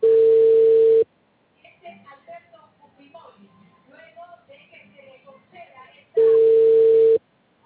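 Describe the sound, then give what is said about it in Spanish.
Telephone tone heard while placing a call: two loud, steady one-second beeps at the same mid pitch, about five seconds apart, with faint indistinct voices murmuring in the gap between them. “Hago esta llamada y le digo a Yonela.”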